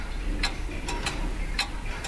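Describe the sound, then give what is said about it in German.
A wooden mechanical grandfather clock ticks with a few crisp, sharp clicks over a steady background hiss. The ticks are fairly faint and spaced unevenly. “So eine Standuhr aus Holz gab es auch im Wohnzimmer meiner Großeltern. Mein Großvater hat sie aufgezogen. Heute müssen manche den Umgang erst neu lernen. Richtig eingestellt gehen diese mechanischen Uhren ganz genau.”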